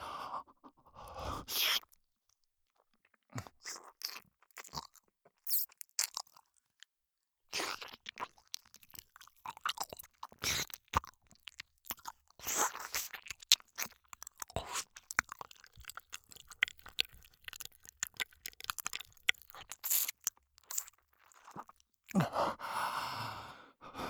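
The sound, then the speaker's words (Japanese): Wet ear-licking mouth sounds: many irregular quiet smacks, slurps and lip clicks in uneven bursts, with soft breathy sighs between them and no talk. “今度は舐めてみるよ。”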